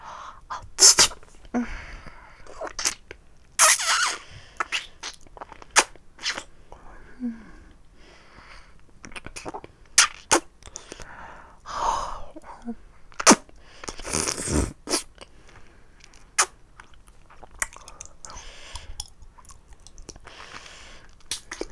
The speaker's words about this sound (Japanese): たっぷり舐めたら先っぽからいただきます。